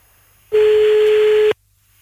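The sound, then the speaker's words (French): A single ringback tone sounds on a listener's call into a live radio phone-in show. One steady pure beep of about a second starts and stops abruptly over faint line hiss. “C'est parti, ça sonne.”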